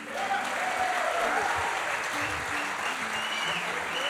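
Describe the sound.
Audience applause welcoming a mandolin player from Austin, Texas onto the stage: dense, steady clapping that holds evenly throughout.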